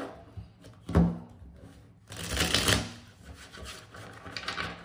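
Tarot cards being shuffled, heard as a single dull knock followed by a longer burst of papery rasping and riffling. Softer rustling follows, and no one speaks.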